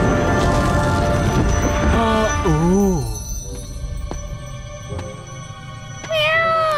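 A cat meows a few times with rising-and-falling cries, first over a busy, steady background and then more clearly near the end.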